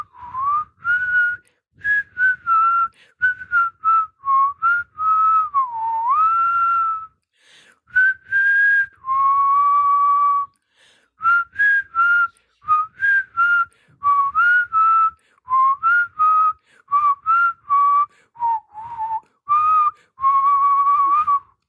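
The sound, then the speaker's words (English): A man whistles a breezy, cheerful tune alone, with clear steady tones broken into many short notes and some sliding pitch bends across a lively melody. “as he breezed into Nigel's office whistling”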